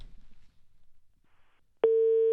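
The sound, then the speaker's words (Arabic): A telephone busy signal sounds on a phone line as one loud, steady, flat beep, heard alone after a quiet stretch with faint low rumble. “الهاتف دائما مشغول.”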